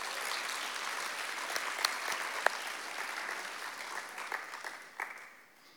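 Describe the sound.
Audience applause welcoming a speaker to the front: steady, dense clapping that holds for several seconds, then thins and fades out at the end.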